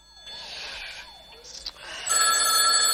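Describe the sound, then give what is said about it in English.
A telephone rings in repeated electronic bursts with a steady tone, moderately loud over a faint low hum, and the last burst is clearly louder than the earlier ones. “The phone rouses Joan on the sofa.”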